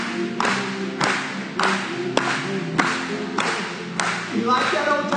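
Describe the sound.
A church audience claps in a steady, even rhythm, with sharp beats roughly every half second over sustained voices underneath.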